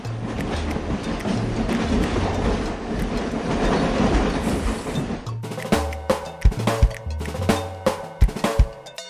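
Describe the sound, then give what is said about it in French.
A train gives a dense, loud rolling rumble for about five seconds, then shifts to sharper, rhythmic clickety-clack beats of wheels over rail joints, repeating several times with a low hum underneath. “C'était le train.”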